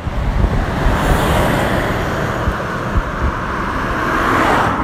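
Cars drive past on a road, a continuous broad roar of tyres and engines that swells slightly in places, mixed with gusty wind buffeting the microphone.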